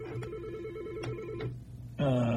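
A telephone rings on a call-in line with a steady, warbling electronic tone that repeats for about a second and a half before breaking off.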